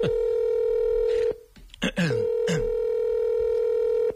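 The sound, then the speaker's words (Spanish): Telephone tones as a number is dialed on a phone keypad: a steady electronic tone holds for over a second, is cut by a short burst of voices, then resumes and sustains to the end. “Voy a llamar FIFA ahora mismo, ya tengo que arreglar una cosa.”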